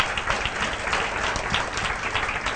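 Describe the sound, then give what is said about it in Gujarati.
An audience of devotees claps together in praise at a religious gathering, a dense, steady roll of applause without pause or voices. “સંતોએ સરસ યાદ રાખ્યું ને, તાળી પાડો સંતન, વધાવો.”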